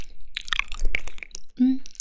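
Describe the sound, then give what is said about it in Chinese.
Someone chews cold pig ear salad: crunchy bites and wet chewing come in uneven bursts, fairly loud and close. “对啊，我正吃着呢，在吃凉拌猪耳朵。”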